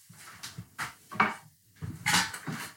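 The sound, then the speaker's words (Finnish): An upper kitchen cupboard is opened, giving several knocks, thumps and clattering rattles in an irregular sequence, moderately loud with short pauses between them. “Mutta jos mä avaan ton yläkaapin täällä keittiössä.”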